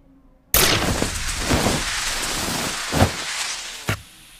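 Gunfire in a science-fiction scene opens with a sudden loud blast. Sustained crackling noise follows, broken by a few sharper bursts before it stops abruptly.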